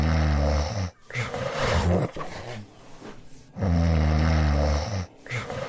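A man snoring loudly: two long, rasping, throaty snores with rougher, murmuring breathing between them. The snoring is loud and rhythmic.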